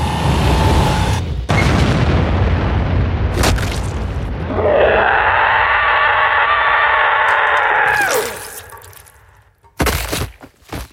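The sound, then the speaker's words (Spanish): A powerful punch blasts a hole through a body in an animated fight, rendered as a long, loud roaring blast with crackling. A sustained tonal surge cuts off abruptly, and a few sharp cracks follow near the end. “La fuerza del golpe de Spawn hace un hoyo a través de Violator.”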